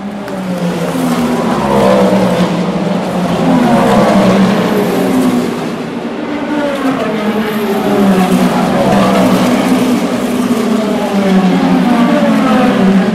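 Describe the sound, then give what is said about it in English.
Racing hypercars, a Ferrari and a Porsche among them, roar past in a loud, continuous high-pitched engine scream whose pitch repeatedly rises and falls as several cars go by. “There go the hypercars.”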